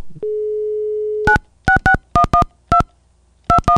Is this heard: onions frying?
no